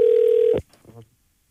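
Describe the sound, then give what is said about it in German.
A telephone tone sounds as a call is placed to a prize winner: one steady, buzzing tone holds for about half a second, then cuts off abruptly, followed by a few faint, brief clicks. “Und wir hören jetzt mal rein, wie er auf den Anruf meiner Radioaktiv-Kollegin Jule Stolpe reagiert hat.”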